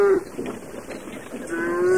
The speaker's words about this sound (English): Let the cows loose.